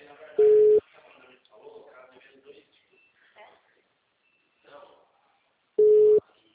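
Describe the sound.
Ringing tone of an unanswered telephone call: two steady mid-pitched beeps about five seconds apart, with someone talking in between.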